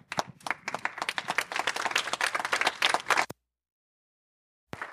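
A church audience applauds to welcome a pastor. Dense, lively clapping runs for about three seconds and then cuts off sharply, with one short burst of clapping near the end.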